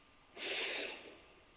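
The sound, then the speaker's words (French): A single slow inhale through the nose during a guided breathing exercise: a soft, airy hiss that swells and fades over about a second, faint and heard alone. “J'inspire tranquillement par le nez”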